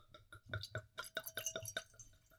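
Wine poured from a bottle into a glass, a quick, steady run of many bright gurgling glugs with a faint glassy ring, quiet and without voices.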